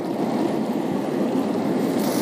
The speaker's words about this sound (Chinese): 下面我们放入八角、桂皮、蚝油、少许的鸡精，翻炒均匀之后倒入水，